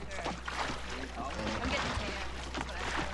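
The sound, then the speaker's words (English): Oars dip into calm, glassy lake water from a rowing boat, making soft splashes and trickles at a low level over a steady hum, with indistinct chatter from people aboard. “As the boat crosses the lake and the others chat, Johnny sits at the stern and looks out at the calm waters. The dipping of the oars causes little swirls in the glassy surface of the water.”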